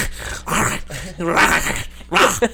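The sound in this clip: A man's voice imitates a costumed monster's growling scream, a gruff "rah" in place of a howl. Several loud, raspy vocal bursts come in uneven succession, rough and throaty.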